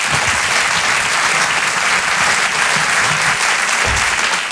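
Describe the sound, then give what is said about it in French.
Loud, dense applause from an audience welcoming a comedian to the stage at a French stand-up show, a steady roar of clapping that holds at full strength throughout. “Je vous demande un tonnerre d'applaudissements s'il vous plaît pour Halil Vardar.”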